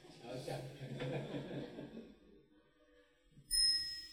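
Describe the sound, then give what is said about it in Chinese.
A Buddhist yinqing hand chime is struck once after a stretch of talk, giving a bright, sharp strike that rings on as a sustained high, clear tone until the end. “再敲一声吧，你们敲个引磬吧。”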